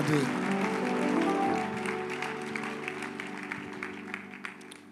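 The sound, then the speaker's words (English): A church audience claps for the Lord after a prayer, over sustained musical chords. The applause is strongest at the start and eases off gradually. “Give the Lord a wonderful clap of your hands.”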